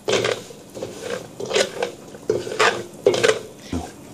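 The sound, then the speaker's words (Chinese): Toasted rice stir-fried in a pan for milk tea, with a utensil scraping and clattering in a series of rhythmic strokes over a low, faint sizzle. “香味一出就可以放入炒米，你看滋滋冒泡了。”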